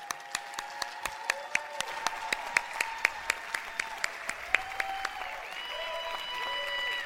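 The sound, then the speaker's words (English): An audience applauds to welcome a speaker, with sharp, evenly spaced claps in a steady rhythm over a faint hum. The clapping thickens into a denser wash toward the end. “Give him a big hand.”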